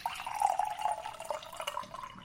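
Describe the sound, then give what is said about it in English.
Apothic Crush red wine is poured into a glass, giving a faint, steady trickling splash of liquid with no talk over it. “I am going to pour myself a nice big glass of Apothic Crush.”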